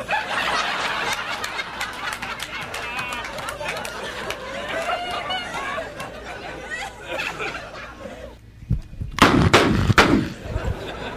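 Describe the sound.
Gunshots ring out in a comedy sketch recording: a few sharp, loud bangs burst out near the end after a stretch of talking and chatter.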